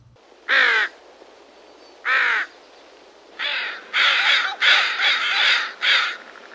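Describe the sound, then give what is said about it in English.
A crow of a Pacific Northwest species cawing: harsh, raspy caws, the first few spaced well apart and the later ones bunched in a quicker cluster, loud and with no other sound. “That familiar caw may be a little bit more complex than you think. This species, or potential subspecies to a more common North American bird, is specific to the Pacific Northwest”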